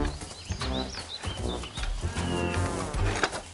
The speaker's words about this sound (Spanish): ¿Ustedes creen que este ternero debe estar aquí? Yo no lo creo. Su lugar está allá, con su madre.